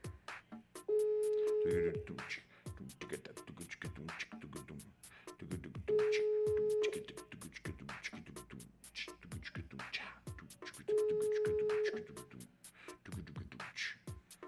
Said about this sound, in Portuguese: Agora sim. Agora tá ringing. Tava no calling. Agora vai tocar pro mano mesmo.